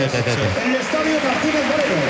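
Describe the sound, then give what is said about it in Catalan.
A football crowd of about 30,000 applauds at the Martínez Valero stadium as the attendance is announced. The dense, steady roar runs beneath a commentator's continuous talk throughout. “Per què hi ha aquesta eufòria? Aplaudeix ara el públic perquè ens estan donant la dada d'assistència, 30.704 persones avui aquí al Martínez Valero.”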